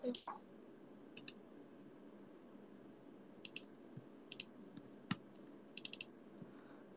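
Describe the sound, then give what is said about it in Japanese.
Mouse clicks from double-clicking an executable file on a computer: faint, sharp, paired clicks recur a few times over a low steady hum. “エグゼファイルをダブルクリック。”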